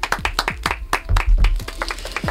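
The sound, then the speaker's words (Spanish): Hands clapping in applause in a radio studio for a colleague's birthday: a run of many sharp, distinct claps at an uneven pace, with a few low thumps mixed in and no talking over them. “Un aplauso.”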